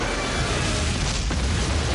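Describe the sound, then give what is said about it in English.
An explosion blows apart a building with a disc-shaped roof in a succession of fireballs after rocket strikes. The result is a dense, loud, continuous rumbling roar that holds steady throughout, with no voices. “the disc-shaped roof judders and blows off. The lizards scream as the building blows apart in a succession of balls of flame.”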